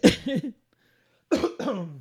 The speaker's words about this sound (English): I'm going to edit out my cough. That was a weird one.